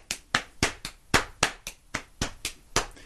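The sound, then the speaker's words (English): Crisp slaps and claps come from a seated person beating a rhythm with hands on legs, counted in threes. The many sharp, evenly spaced strikes are loud and percussive, each with a quick decay, and no voice accompanies them. “hand, leg, and I'm seated and beating a timeout on my legs and with my hands. And when done alone, it sounds like 1, 2, 3, 1, 2, 3.”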